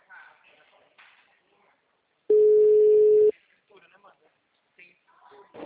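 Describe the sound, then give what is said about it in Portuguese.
A telephone tone sounds while a call is being placed: a single steady, even tone lasting about a second, set between stretches of quiet talk. “eu tô tentando fazer uma ligação.”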